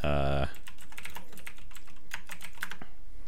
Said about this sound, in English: Oh, no, I actually typed in Activision into the news section